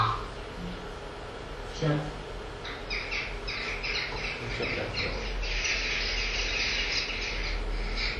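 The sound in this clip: Whitethroat song played back at double speed: rapid, high, scratchy chirps and trills that begin after a couple of seconds and carry on over a steady low background hum.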